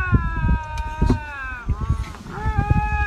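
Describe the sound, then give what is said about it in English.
Two lynx, big cats, yowl at each other in long, drawn-out, wavering wails that overlap and hold their pitch, with bursts of low, rough noise beneath. “But this is the sound of two lynx yelling at each other. They're waiting for one of the others to back down.”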